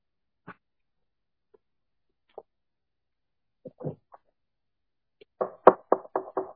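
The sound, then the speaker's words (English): Knocking on a door: a few sparse, isolated raps spread apart, followed by a quick, louder series of sharp knocks at the end. “Behold, I stand at the door and knock.”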